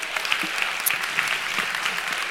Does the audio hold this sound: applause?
yes